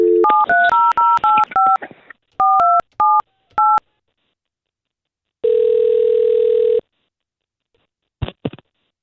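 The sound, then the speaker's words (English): Telephone keypad tones place a call, with a rapid run of dialing beeps in two bursts, then a long steady tone and a couple of brief blips near the end. “all we're going to do is we're going to try to get her on the line, and if we can talk to Chloe first, we'll see if we can patch you two up together”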